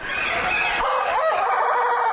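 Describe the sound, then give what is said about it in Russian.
A rooster crows, an odd-looking breed apparently from Latin America, recorded beside its cage: a loud, raspy, sustained crow of about two seconds. “Для того, чтобы записать голос одного по европейским меркам странно выглядевшего петуха, кажется, из Латинской Америки, пришлось стоять возле клетки минут 10.”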